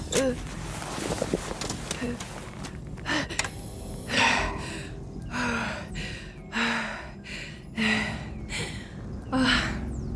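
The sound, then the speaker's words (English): Gasping, laboured breaths of someone short of breath: a run of quick, noisy inhalations and exhalations repeating in an uneven rhythm. “Yeah, breathe. You appear to be suffering from a shortness in breath.”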